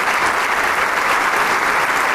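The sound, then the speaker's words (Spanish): An audience at a chamber orchestra concert applauds the bassoonists and other soloists, a loud, even, sustained clapping from many hands that holds steady for the whole stretch. “le pide eh, también que se pongan de pie para recibir el homenaje, el aplauso del público”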